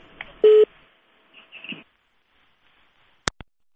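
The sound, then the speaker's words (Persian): A telephone call-in line cutting off: a short, steady electronic tone, a few faint scratchy noises, then two sharp clicks close together near the end, with near-silence in between. “متاسفانه تماس آقای ترخیل قطع شد.”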